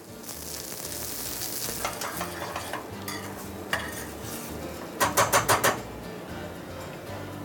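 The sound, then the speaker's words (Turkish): A pan of couscous sizzles steadily as cream and water are added, a constant bright hiss and crackle with a quick run of five sharp metallic clinks from a utensil near the end. “Şimdi biraz içerisine krema. Bir kaşık kadar yeterli. Ve içerisine bir miktar su ekliyorum.”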